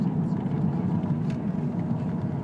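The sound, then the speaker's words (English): A car driving around the Rocky Road roundabout in Ireland, heading toward the Cliffs of Moher, gives a steady, even low rumble of engine and road noise throughout. “We're driving in the direction of the Cliffs of Moher, and we're going round the Rocky Road roundabout.”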